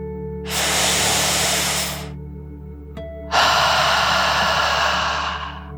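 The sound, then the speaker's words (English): A deep, slow breath in and out during a children's relaxation exercise: a long hissing inhale, a brief pause, then a louder, longer exhale that gradually fades. “let's take one more deep dragon breath in and out.”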